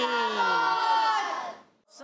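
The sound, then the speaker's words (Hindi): Voices chant the Dawat-e-Islami slogan at the close of a children's religious program in a long, drawn-out call whose pitch sinks toward the end, followed by a brief breathy burst after a short gap. “और नारा लगाना है दावत इस्लामी।”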